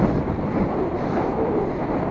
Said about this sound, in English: I hope you can hear me with all this wind